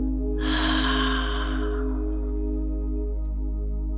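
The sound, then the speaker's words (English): A deep breath during a guided breathing exercise: one rushing, airy breath that starts loud and slowly fades, over a steady low hum. “Again, inhale, double exhale. One more time, inhale, exhale.”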